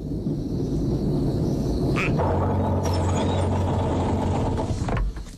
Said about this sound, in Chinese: 就这样，王冷斋被日本鬼子开车带到了宛平城外。